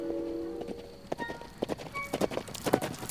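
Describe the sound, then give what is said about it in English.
A horse's hooves clip-clop as a rider approaches, a quick, irregular run of many sharp hoof strikes that grows somewhat louder toward the end. “Then the guide rode up to us and reported.”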